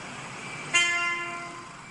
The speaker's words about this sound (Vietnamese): Vũ lách người bật cao thoăn thoắt trong tiếng còi xe inh ỏi cùng những tiếng đạp phanh gấp gáp cháy cả mặt đường